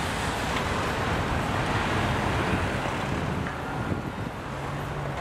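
Street bustle and traffic on Shariati Street in Tehran's Tajrish area form a continuous, dense roar with no clear separate events, holding a steady level throughout.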